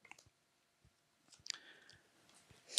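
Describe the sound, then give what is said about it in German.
Faint clicks and a brief papery slide as playing cards are drawn from a deck during a game, soft and scattered with no talk. “Ich ziehe für euch Karten.”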